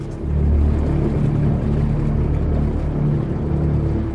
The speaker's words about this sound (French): Le 24 mars 2011, l'équipe arrive sur zone à bord de la Lucia, un imposant navire scientifique.